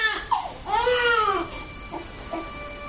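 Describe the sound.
Baby crying on a sofa, a short bleat followed by a long, loud wail that arcs up and down in pitch, then trailing off into a couple of soft whimpers.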